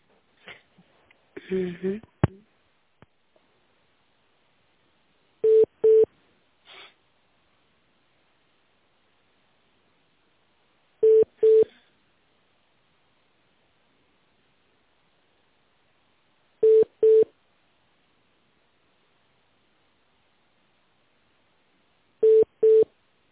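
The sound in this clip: Telephone ringback tones while a call connects: after a brief burst of rustling at the start, four short, steady double-pulsed tone bursts repeat at even intervals several seconds apart, alone and moderately loud.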